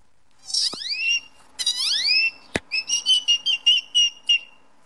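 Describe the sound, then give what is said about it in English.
A person imitates a great-tailed grackle call by voice: two loud, rising whistled notes, a sharp click, then a rapid run of short, bright, whistle-like notes. “I started mimicking this great-toed grackle that was bothering my sister. And what does the great-toed grackle sound like?”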